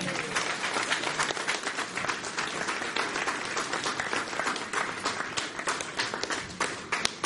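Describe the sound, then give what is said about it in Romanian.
Church audience applauding: dense, steady applause filling the whole clip at an even, fairly loud level with no pauses. “Hai să dăm o aplaudă Domnului!”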